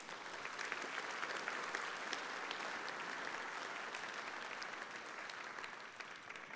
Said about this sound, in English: Would you give a warm welcome to Hannah and Josie as they take the stage?